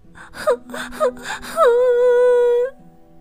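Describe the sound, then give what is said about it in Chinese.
A girl's voice sobs in three short gasping catches, then breaks into one long, high, wavering wail that stops abruptly. It is Gretel crying in a dramatised Hansel and Gretel fairy tale. “睡醒时，天已经黑了，格雷特哭了起来。”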